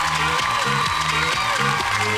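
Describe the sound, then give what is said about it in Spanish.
Applause on a lively morning show: loud, steady clapping layered over a bright melodic music tune, continuous throughout without a break. “¡Aplausos!”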